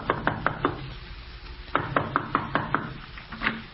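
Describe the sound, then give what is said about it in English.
Knuckles knock on a front door in two quick series of hollow raps separated by a short pause, moderately faint. “Well, here goes. We'll try the front door first.”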